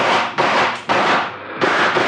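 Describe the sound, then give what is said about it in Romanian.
Gunshots fired together on command: a few loud, sharp blasts in quick succession, each followed by a rumbling decay, with no voices. “Atențiune, ochiți, prieteni. Atențiune, foc!”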